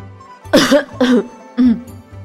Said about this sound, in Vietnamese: Triển Chiêu bị sặc nước trà, ho khan vài tiếng